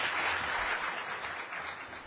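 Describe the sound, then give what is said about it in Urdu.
Audience applause at a panel discussion on religion and politics, a dense, steady patter of many hands clapping together, holding at an even moderate level for about two seconds with no voices over it. “ویسے ہمارے یہاں تالیوں کا رواج نہیں ہے.”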